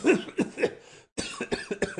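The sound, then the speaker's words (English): Harsh coughing from a man sprawled on his back on the ground: a short run of three coughs, a brief pause, then a longer run of rapid, raspy coughs. “as he's coughing”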